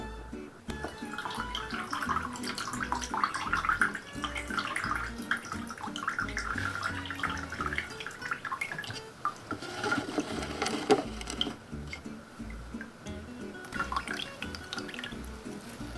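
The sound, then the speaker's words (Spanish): A water and yerba mixture drips and trickles through a filter into a container, a steady, busy patter that runs without pause from start to end. “Ponemos la mezcla sobre el filtro. Y dejamos que se filtre.”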